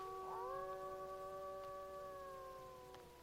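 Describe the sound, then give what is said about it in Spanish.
A wolf howls in one long, steady, sustained tone that lasts the whole clip, faint and alone, with a slight fade toward the end. “hay un lobo aullando.”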